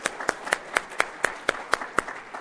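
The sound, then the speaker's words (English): Clapping from an audience at a meeting, thanking donors to a realtors' political action fund for the year. A steady run of evenly spaced, crisp claps sounds alone at a moderate level. “Everybody clap. Thank you so much.”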